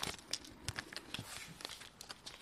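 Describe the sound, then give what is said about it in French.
Faint crinkling and tearing of a trading card's plastic packaging as it is opened, a run of many small, sharp crackles and rustles in an uneven rhythm. “Le but du jeu, c'est d'ouvrir l'emballage pour faire un clone de la petite carte.”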